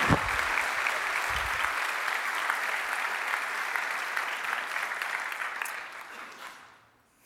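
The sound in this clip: An audience applauds to welcome a speaker to the stage, a dense, even wash of clapping that holds steady and then fades out at the end, with no voices over it.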